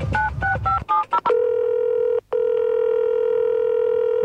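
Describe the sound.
Telephone dialing for a call back: a quick run of clipped keypad tones, then a steady continuous line tone with one brief dropout.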